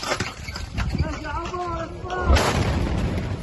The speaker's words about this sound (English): A blast could be heard the moment an Israeli airstrike hit a house in a Gaza City suburb on Sunday.